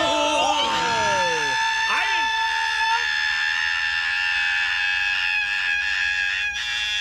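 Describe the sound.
A person screams loudly like a monster, a harsh, piercing, harmonic-rich shriek that runs for about seven seconds, loud throughout.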